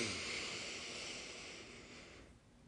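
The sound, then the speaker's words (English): A long exhale through an open mouth during a breathing exercise, a soft airy rush of breath that holds steady and then fades away near the end. “Open your mouth, let it go. Again, breathe.”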